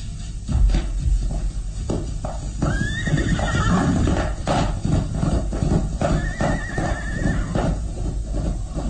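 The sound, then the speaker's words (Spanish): A peasant's horse whinnies twice, loud and shrill, over a steady drumming of hooves as it gallops away into the mist. “El campesino se aleja al galope hasta perderse en la bruma.”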